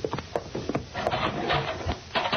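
A cell block door is opened with a cluster of wooden knocks, rattles and scraping rubs, irregular and moderately loud.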